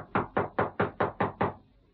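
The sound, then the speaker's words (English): Knocking on a house door: seven firm, evenly spaced raps in a steady rhythm, each a short hollow thud, followed by quiet. “Knock on the door again.”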